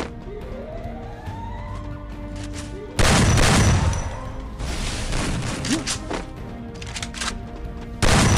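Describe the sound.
Gunfire, including shotgun shots, in a video game: several loud, sharp bursts break out at irregular intervals over a steady background of game noise.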